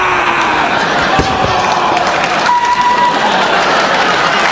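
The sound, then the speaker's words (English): An audience applauding, a loud, steady roar of dense clapping and crowd noise that holds evenly throughout. “By a round of applause, how do you feel? Hear that?”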